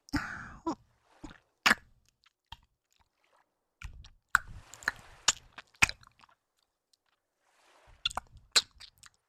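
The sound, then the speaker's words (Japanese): ASMR licking and mouth sounds on an ear: soft, wet smacks, squishes and sharp clicks come in a few short clusters, separated by near-silent pauses. “先輩の弱点の耳ふにゃふにゃにふやけるまで舐めたらどうなっちゃうのかな。いただきます。”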